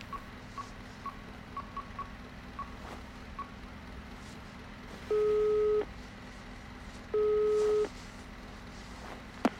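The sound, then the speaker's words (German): Telephone call signal from an outgoing call to a forensic medicine department: several short, faint dialing beeps, then two steady ringback tones about two seconds apart over a low background hum. “Moment, ich rufe mal in der Gerichtsmedizin an, ob Paolo schon da war.”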